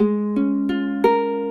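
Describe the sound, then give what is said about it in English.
Four ukulele strums with a capo clamped one fret up: each chord rings clearly and sustains into the next, producing bright, steady harmonic tones with no talking. “And then, with a capo, you can take it either one fret up. So it's just going to sound a little bit different.”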